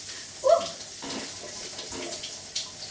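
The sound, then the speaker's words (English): Water runs from sink taps as a faint, steady hiss, with a brief louder splash near the start. “Right, we turn the taps on.”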